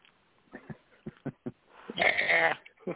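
A person imitates sheep bleating. A few short soft vocal sounds lead into one loud, wavering bleat, then a softer sound at the end.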